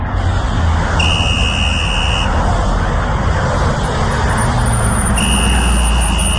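Car engine and road noise in a drink-driving warning spot, loud and steady, overlaid twice by a long, high, buzzer-like warning tone, once early and once near the end.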